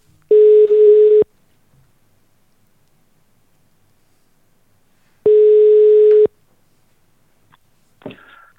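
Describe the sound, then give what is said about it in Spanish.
A telephone call connects with a ringback tone: two long, steady, mid-pitched tones separated by a long pause, then a brief faint noise at the end. “vamos a por la segunda llamada. Llamada, venga.”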